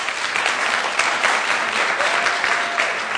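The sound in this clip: An audience in London applauds to welcome a guest speaker, with dense, even clapping sustained at a steady loudness throughout and no voices standing out.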